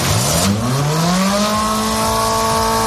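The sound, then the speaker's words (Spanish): A Ferrari Roma sports car engine revs hard as it accelerates, its loud, throaty drone climbing steadily in pitch for about a second and a half, then holding a high, sustained roar. “Suena bien, ¿eh? Es el Ferrari Roma. Es el más normalito, por decirlo de algún modo.”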